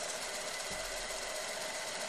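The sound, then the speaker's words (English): A microfilm machine runs in a farm's home office, giving off a steady, unbroken mechanical whir and hum with a bright, hissy edge. It holds an even loudness throughout with no pauses and no voices. “That's a microfilm machine, like the ones you used at your high school library.”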